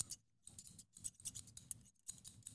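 Hair-cutting scissors snip in quick bursts of many crisp, bright cuts separated by short pauses, fairly faint, with no talking.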